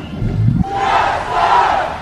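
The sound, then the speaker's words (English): A parade crowd in South LA shouts and cheers on King Day, a loud, continuous roar of many voices that swells and stays dense throughout. “There was a lot of shouting and cheering.”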